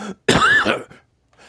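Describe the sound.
A single harsh cough with throat clearing: one loud, abrupt, rasping burst lasting about half a second, with faint voice fragments just before and after.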